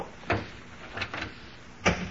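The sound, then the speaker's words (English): A door being carefully closed, with a few faint, soft clicks and muffled knocks of the latch spread out over the quiet. “when you close the door”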